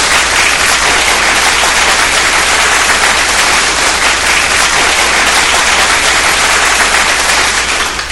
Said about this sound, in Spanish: Un fuerte aplauso para Laura.